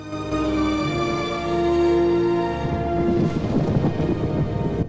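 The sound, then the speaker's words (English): Rain falls with thunder: a broad, steady hiss of rain that grows denser and more crackling in the second half, with deep rumbling underneath and a sustained low tone early on. “Rain begins to fall.”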